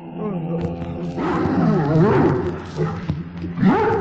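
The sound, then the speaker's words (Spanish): A dog growling low and steadily, with a wavering pitch that swells into a stronger rumble midway, eases off, then flares up once more near the end. “Su pelaje se erizaba por momentos y sus gruñidos terminaron por despertar al muchacho.”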